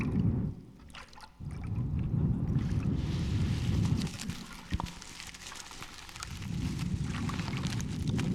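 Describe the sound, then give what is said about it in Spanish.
Wind blowing over jungle and sea, heard as a low, rumbling roar that swells and fades in gusts, dropping to quieter lulls before surging again, with a few brief sharp ticks. “Se oye el viento, que es el aliento de la selva y del mar.”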